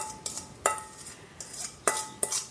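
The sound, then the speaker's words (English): Crumble topping is dumped and spread over peaches in a baking dish, heard as a few sharp utensil clinks against the dish with soft scraping between them. “so just dump all of this on the top of the peaches and spread it around till it's all about the same depth.”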